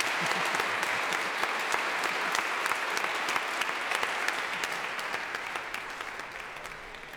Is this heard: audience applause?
yes